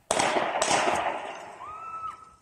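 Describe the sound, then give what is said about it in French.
Police open fire on a man advancing toward them with knives: a few sharp, loud gunshot bangs crack out at the start and decay into a noisy tail, and a steady tone briefly follows. “l'homme a commencé à avancer vers les policiers et ils ont ouvert le feu.”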